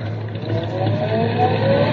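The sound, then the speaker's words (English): A car engine accelerates during a driving lesson, with the driver easing off the clutch and onto the gas; a loud, steady engine drone whose tone climbs gradually in pitch, with no voices. “Now easy on the clutch and light on the gas.”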